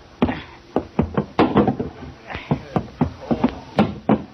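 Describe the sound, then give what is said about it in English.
Wooden knocks and clunks as a boat's cabin hatch is opened: many irregular, sharp hits of varying strength, with brief pauses between some of them. “open the hatch to the cabin.”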